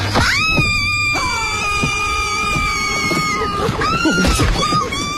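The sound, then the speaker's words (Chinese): A woman screams on waking: a long, loud, high-pitched cry that rises at its onset and holds steady for about three seconds, followed by a shorter second cry, over constant background noise. “只是一天早上，当 Lucy 从亨利身边醒来时，立刻大叫了起来。”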